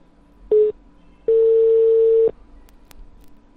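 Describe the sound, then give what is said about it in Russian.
Telephone tones while placing a call. One short beep is followed after a pause by a longer steady mid-pitched tone, and then the line drops to a low hiss. “Все, сейчас я набираю, типа я нахуй еду к нему.”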